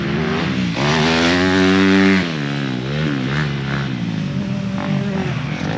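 Dirt bike engines roar on a hard-pack motocross track, a loud, continuous buzzing drone whose pitch climbs steadily as a bike revs, then drops sharply near the middle before the engine noise carries on, slightly rougher, to the end.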